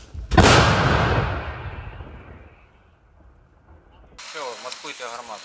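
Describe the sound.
A single heavy boom from a howitzer firing in Ukrainian service. It hits hard and dies away as a long rumble over about two seconds. A voice then speaks.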